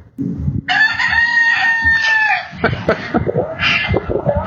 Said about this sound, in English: You might hear a rooster in the background. I'm in Key West, and it's famously chickens everywhere.